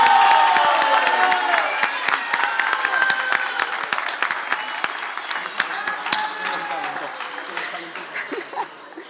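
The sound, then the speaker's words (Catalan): Audience applause and cheering for the evening's presenters at a celebration night. The clapping is loud at first and gradually thins over nine seconds, with scattered shouts mixed in. “Un fort aplaudiment per ells.”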